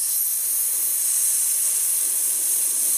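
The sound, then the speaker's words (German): A rider gives a drawn-out hissing cue to slow a galloping horse. The hiss is steady, bright and unbroken, lasting about three seconds with no other sounds. “Dann bitte ich sie um einen langsameren Galopp. Dann wieder normal, langsam normal, indem ich immer so ein bisschen mich nach hinten lehne und die Gerte leicht hebe. Und dann habe ich ein Geräusch dafür, das ist so ein”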